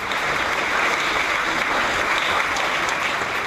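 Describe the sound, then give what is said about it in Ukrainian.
A theatre audience rises to its feet and applauds a Ukrainian stage performance in Mariupol: sustained, dense clapping, a steady wash of hand claps with no voices standing out. “ця зала раптом підвелася і вибухнула оплесками.”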